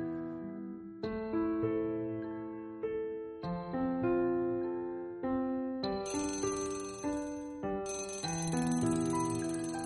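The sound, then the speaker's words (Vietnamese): An alarm clock ringing with a repeating melody of bright, bell-like chime tones that play in loud, evenly paced phrases, alone and without any voices. “Tiếng chuông đồng hồ báo thức treo in ỏi đánh thức Thùy Dương”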